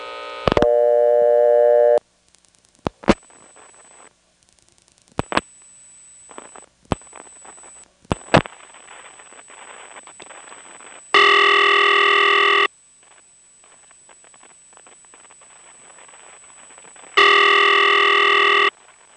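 Telephone trunk line tones after dialing 6 plus 811, with the line going off hook: a faint steady tone runs throughout, broken by several sharp clicks and a few long, loud blocks of buzzing multitone signal.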